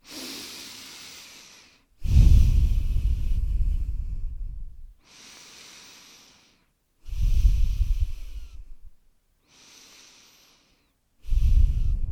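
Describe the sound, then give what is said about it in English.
Three deep breaths taken slowly for a meditation, each a loud, rushing draw of air separated by softer, quieter exhales in an even, unhurried rhythm, with no talking. “I want us just to take three deep breaths together and I want us to think of three things we're grateful for. So let's start with the deep breaths.”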